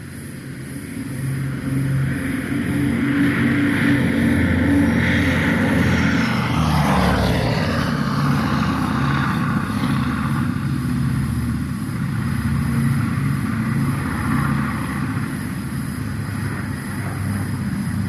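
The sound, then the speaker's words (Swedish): A Boeing B-17G Flying Fortress bomber flies over with a loud, steady propeller-engine drone that fills the whole clip. The pitch dips midway as the plane passes, then the roar carries on. “Så ska vi lyssna till några överflygningar med Sally B, Boeing B-17G Flying Fortress.”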